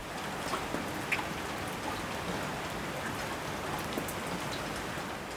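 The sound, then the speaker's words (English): Rain falls steadily as a dense, even hiss, with a few slightly louder drops standing out. It continues at a moderate level from start to finish, alone and without voices. “Other sounds that people find pleasant are the sound of rain,”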